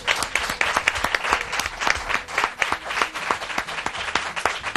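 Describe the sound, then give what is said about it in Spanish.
Applause from a group of people, dense steady clapping that rises and falls slightly in loudness but continues without pause for the whole clip, with no voices over it. “Yo quiero dar un aplauso a todos estos oyentes que están trasnochando con nosotros, que son estupendos.”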